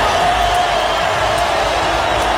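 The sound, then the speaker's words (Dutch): Crowd noise fills a stadium in Miami during a World Cup football match between Brazil and Scotland, a dense, steady roar of many voices and cheering that holds at an even level throughout. “Applaus in Miami.”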